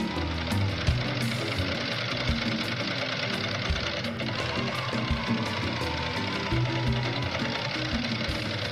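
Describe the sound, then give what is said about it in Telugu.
A running giant wheel (Ferris wheel) ride gives off a loud, steady mechanical clatter: continuous rhythmic knocking and rattling from the machinery with no break and no voices. “Giant wheel ఇప్పుడే start అయింది బాబు, ఇంకో 10 నిమిషాల తర్వాత గానీ ఆగదు.”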